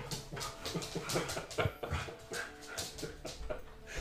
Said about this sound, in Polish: Poczekaj, wypuszczę psa. Ale ty się kręcisz, pies.